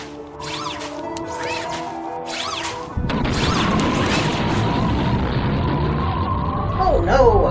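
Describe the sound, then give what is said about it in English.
A spaceship crash-landing on Mars: several rising and falling wailing tones repeat for about three seconds, then a loud, sustained roaring rumble takes over and grows heavier toward the close. “Now we are plummeting toward the surface of Mars. Brace for impact!”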